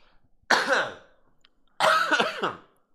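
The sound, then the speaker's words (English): Two loud coughs into a microphone, each a harsh, rough burst of about half a second, separated by a short pause, with no talk around them. “Pro tip for the week is don't cough into a microphone.”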